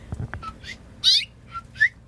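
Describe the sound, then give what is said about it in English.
Soft whistled chirps from a mother bird at her nest: a few bright, high calls spaced out across the moment, one slightly louder in the middle, over faint low background noise. “Come back in. It's okay. It's just me. Come on. Get back in your nest, Mom. She'll just hop right back in when she hears me talk.”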